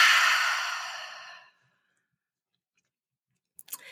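A deep breath exhaled slowly during box breathing, a long breathy rush that fades steadily over about a second and a half, followed by silence and a few faint clicks at the end.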